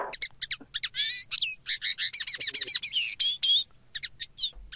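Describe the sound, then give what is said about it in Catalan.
A common linnet sings, delivering quick bursts of high twittering chirps and short trills in an irregular stream, fairly faint and alone. “És un passadell.”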